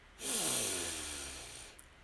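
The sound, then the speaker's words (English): A single deep breath drawn in during a guided chakra meditation exercise: a long, airy inhalation that swells quickly and then slowly tapers over about a second and a half, alone with no talk. “So deep breath in.”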